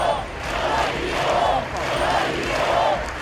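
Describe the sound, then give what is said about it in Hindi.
A crowd chants slogans in Barcelona after militant attacks in Spain. Many voices shout a phrase in a loud, repeating rhythm that rises and falls in regular waves. “Barcelona शहर में लोगों ने नारे लगाए, हम डरे नहीं हैं।”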